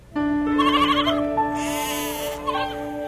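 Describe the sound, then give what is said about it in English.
Sheep at pasture bleating, a loud, long, wavering bleat with a second rise in the middle, heard alone over quiet background. “Yaakov had lots of sheep, and Yosef's brothers would take them out to pasture each day and care for them as they grazed.”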